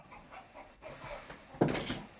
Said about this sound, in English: That's my dog chasing the kid, the chickens.